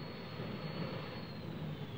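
Small single-door plane touching down on landing, heard as a steady, even engine roar and rush of air with a thin, high whine running through it.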